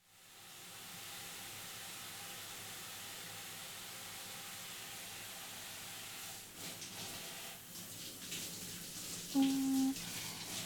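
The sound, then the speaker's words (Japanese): Warm water pours over hair as it is rinsed, making a steady, broad rushing hiss. The flow turns more uneven and splashy in the last few seconds. “では流していきますね。”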